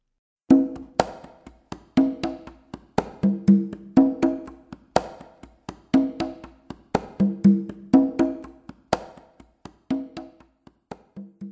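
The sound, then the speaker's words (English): Conga drums playing a solo tumbao rhythm in cha-cha-cha style: a steady, repeating pattern of muted strokes and ringing open tones that cycles many times at an even tempo. “Alone, tumbao on the conga drums sounds like this.”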